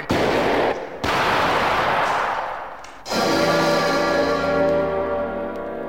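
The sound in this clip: Two heavy shotgun blasts in a radio drama, fired by a gamekeeper at a wolf: loud booming cracks about a second apart, each trailing into a long decaying rumble, followed by a sustained tonal swell.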